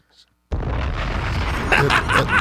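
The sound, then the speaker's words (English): Bombs explode with a sudden loud blast after a moment of near silence. A heavy, sustained rumble and crackle follows and lasts to the end, swelling again toward the close. “Bombs!”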